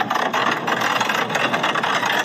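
A heavy vehicle's engine runs as the driver presses the throttle very gently during an assessment that involves coupling vehicles weighing tens of tonnes. The engine gives a steady, fairly loud, broad hum that barely rises, with no voices.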